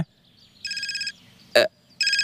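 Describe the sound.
Electronic telephone ringtone with trilling, bright bursts: two rings separated by a short, sharp knock, over a faint low background.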